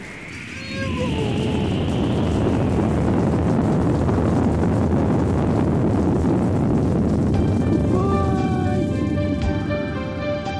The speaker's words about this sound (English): A satellite has taken off, it's really climbing fast. The neighborhood way down below still shaken from the blast.